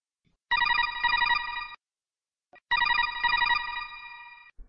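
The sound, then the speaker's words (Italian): An incoming codec call rings in a video game as two bright, trilling electronic ring bursts. The bursts are separated by a short silent pause. “Eccoli. Una loro chiamata. Inoltre la frequenza del loro codec.”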